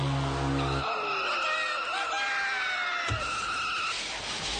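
Whammy sound effect from the Press Your Luck game show board: squealing, sliding electronic tones that swoop and waver, starting over a low buzzing drone that cuts off early.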